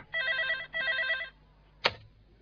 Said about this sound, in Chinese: 电话啊，电话啊！